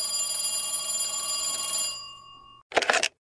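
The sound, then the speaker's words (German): A telephone rings to signal an incoming call during a quiz game, a bright sustained bell-like tone that fades out, followed by a short buzzy burst. “Da kommt auch schon der Anruf aus der Jury.”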